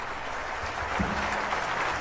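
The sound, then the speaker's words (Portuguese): An audience at Sala Minas Gerais gives a standing ovation to the Minas Gerais Philharmonic Orchestra. The applause is an even, sustained wash of clapping at a moderate, fairly soft level. “assim como a Orquestra Filarmônica de Minas Gerais, aplaudida agora de pé pelo público presente na Sala Minas Gerais.”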